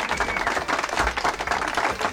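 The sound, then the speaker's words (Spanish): A short burst of audience applause, many hands clapping together in a thick, continuous patter that holds at a constant loudness from start to finish. “Vamos, aplauso, por supuesto.”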